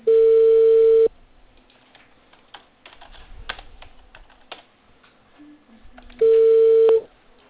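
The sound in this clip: A telephone call being dialed: a steady dial tone, then a run of keypad button presses with soft clicks, then another steady tone.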